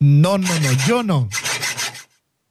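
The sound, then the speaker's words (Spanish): Handsaw sawing, heard as a few quick rasping strokes near the end, following a louder tonal sound at the start, then silence. “te tira pulvo el sonido del serrucho”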